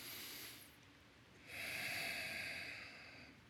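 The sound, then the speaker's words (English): A faint, airy breath drawn in deeply and let out during a guided relaxation, heard as two soft breathy swells, the second longer and stronger, with no talk. “I want you to take a deep breath in. And as you exhale, drop your shoulders and sink down into your seat.”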